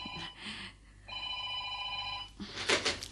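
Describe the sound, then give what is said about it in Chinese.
A telephone ringing with a bright electronic trill in two bursts, the second longer than the first, followed by a short rustling clatter. “听电话啊。”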